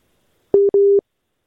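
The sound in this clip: A telephone busy tone after a dropped call: two steady mid-pitched beeps, the first short and the second longer, separated by a brief gap and surrounded by silence.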